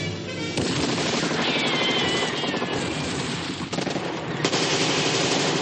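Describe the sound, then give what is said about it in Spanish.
Gunfire from German soldiers in a fortress, shooting at a motorboat lit by a searchlight in a World War II war film from 1961. Loud, rapid automatic fire rattles almost continuously, with sharp fresh bursts near the start and again near the end. “Los alemanes de la fortaleza la iluminan con un proyector y disparan.”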